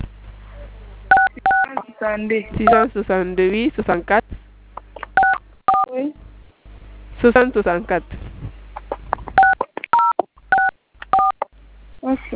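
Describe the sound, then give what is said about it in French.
Keypad DTMF tones sound as a telephone number is dialed: many short, crisp beeps in quick clusters, with a person speaking between and around them. “Je vais composer.”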